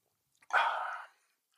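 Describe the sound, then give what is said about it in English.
A single soft slurping sip of Trader Joe's sparkling wine made by Rack and Riddle: one brief hissy intake, faint and alone, lasting about half a second. “I'm going to take a sip because this is bubbly and I'll probably have a sip early and often.”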